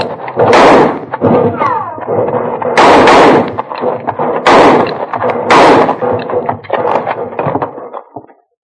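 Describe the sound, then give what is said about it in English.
A volley of gunshots in a canyon shootout: many loud, sharp cracks spread irregularly across several seconds, some bursts standing out above denser rattling fire. “They've quit firing. I guess they must be reloading.”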